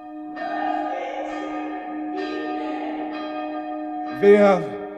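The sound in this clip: A church bell rung by pulling its bell rope sounds two resonant strokes, each ringing on with a long, steady hum. A brief voice follows at the end.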